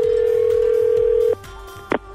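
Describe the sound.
A telephone call reaches an answering machine: a steady mid-pitched tone holds for over a second and then cuts off, followed after a short pause by a brief, higher electronic beep.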